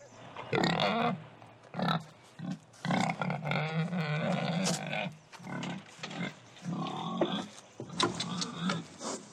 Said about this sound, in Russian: Ой, свинья.